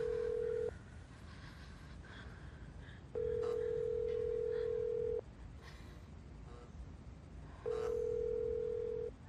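A telephone ring tone sounds before a call is answered: steady, flat electronic tones in long bursts separated by quieter gaps, three bursts in all, with the first cut short at the start.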